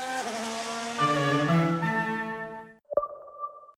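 A race car at Zandvoort: a loud, high, strongly harmonic engine whine that holds steady and then cuts out, followed by a short, sharp ringing ping.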